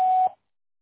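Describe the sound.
A single voicemail beep tone sounds on a Spanish-language phone system to cue message recording. It is a short, steady, mid-pitched tone followed by silence.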